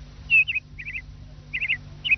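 Sparrows chirping, a pair of small birds: a few bursts of short, high chirps, some in quick triplets, separated by brief pauses over a faint low hum.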